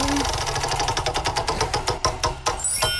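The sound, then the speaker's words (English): Clicking of a prize wheel spun to choose a game: rapid, loud ticks in a steady rhythm that spread farther apart toward the end as the wheel slows. “Let's spin the wheel first and find out what we're playing.”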